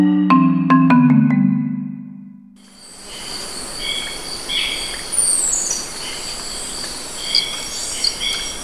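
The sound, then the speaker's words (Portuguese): Tropical forest ambience with insects and birds: a dense, steady hiss of insect and cricket calls with scattered high bird chirps and a quick falling whistle. It begins after a short, low humming tone with a few clicks. “Qual é o som de uma floresta tropical para você?”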